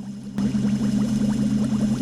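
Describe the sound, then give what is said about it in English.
Liquid bubbles and gurgles as it flows through tubes into four thin cylinders that fill with red and blue liquid. Many quick bubbling chirps ride over a steady low hum and start abruptly after a brief quieter opening. “sends a flow of liquid along tubes to four thin cylinders. Two of the cylinders fill with red, two with blue liquid.”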